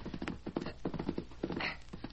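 Hoofbeats of a colt being ridden: a run of rhythmic, fairly even clopping beats repeats through the whole stretch at a steady moderate pace.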